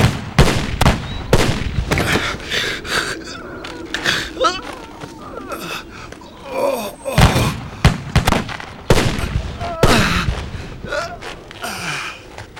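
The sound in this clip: Rifle volley from a firing squad at an execution: many sharp, loud cracks of gunfire in quick clusters, with voices and gasps around them.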